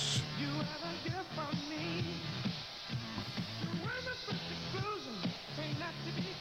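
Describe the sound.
A funk track released in 1982 plays fairly quietly, with a bouncing synth bass line, steady punchy drums and a sung vocal melody repeating in a tight groove.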